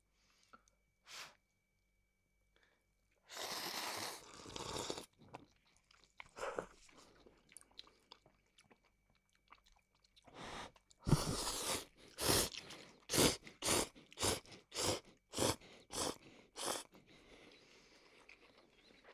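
Someone eats Kyushu-style cup noodles, slurping and chewing. A few scattered small noises come first, then a longer burst of slurping and a quick, regular run of short slurps near the end, all fairly quiet with no talk.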